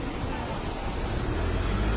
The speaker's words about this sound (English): I got to stop now. There's a car coming.